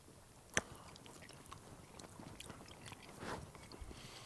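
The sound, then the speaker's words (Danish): Chewing of salami at a wine tasting: faint, soft, moist mastication with small crunchy bites, preceded early on by one sharp click, quiet throughout. “Nu prøver jeg lige med noget salami her.”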